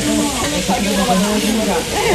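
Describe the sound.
Yakisoba fries on a hot iron griddle, giving a steady, loud sizzling hiss that lasts the whole moment while voices talk over it.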